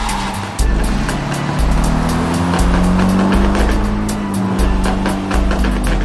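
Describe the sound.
A taxi drives off down a road, its engine humming loudly and steadily while the tone rises slowly, with no voices heard.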